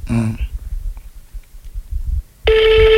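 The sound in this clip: A telephone rings with an incoming call. The steady tonal ring starts loudly near the end, after a brief voice at the start and a quiet stretch.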